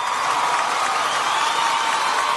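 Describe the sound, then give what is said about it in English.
A round of applause from an audience, an even, sustained rush of many hands clapping at a steady loudness throughout. “One more time, can you give a round of applause to Miss Raven Turner?”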